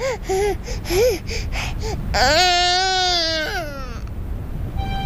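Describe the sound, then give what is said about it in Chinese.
A child cries: several short, sobbing wails come first, then a long, sustained, high wail that wavers and trails off. No other voices are heard. “大姑知道你是为姚奶奶难过呢，你也知道是姚奶奶救了你的命。哦，好了，不哭啊，不哭。”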